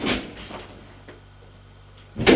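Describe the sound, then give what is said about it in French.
A door closes with a couple of soft knocks and a quiet rattle, then a sharp, loud bang as it slams shut at the very end. “en claquant la porte.”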